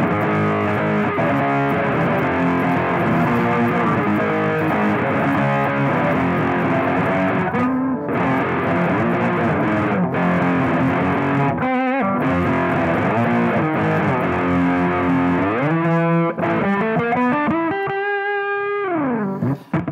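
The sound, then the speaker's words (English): Heavily distorted, effects-laden rock music, processed live with JavaScript and Web Audio during a JSConf EU talk, plays loud and continuous, with brief drop-outs and sliding, rising pitches near the end. “Yeah, everything you heard was processed by JavaScript and actually web audio stuff.”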